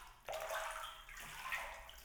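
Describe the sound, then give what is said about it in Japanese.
Hair is washed with plenty of foam, giving soft, faint wet squelching and rubbing. After a brief quiet start, a steady sudsy rustle begins abruptly and carries on with no talking. “ここは泡をいっぱい使ってわしゃわしゃーってするんです。”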